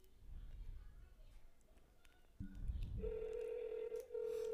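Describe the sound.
A telephone ringing tone during a call: a steady, buzzing electronic tone starts partway through and holds to the end, after a stretch of muffled background noise.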